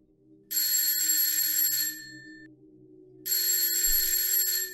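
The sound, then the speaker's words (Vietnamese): A school break bell rings in two long, loud bursts of bright metallic ringing separated by a short pause, with a low hum continuing underneath. “Chuông giải lao vang lên.”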